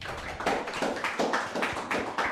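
Quiet, fairly rhythmic hand clapping greets a debate guest, with separate claps in a steady pulse rather than a dense roar, suggesting only a few people applauding.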